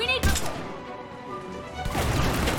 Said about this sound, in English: everyone's up above, and they just unleash an unlimited number of bullets against everyone else that was going to close in on Shepard.